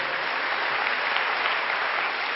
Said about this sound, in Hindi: इन सभी लोगों के लिए जरा जोर से तालियां बजाइए।